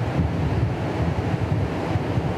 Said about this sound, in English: And we are here with the river flowing and the wind.